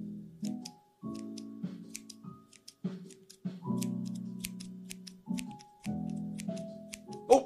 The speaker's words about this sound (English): All right, I'm gonna start trimming on this side a little bit.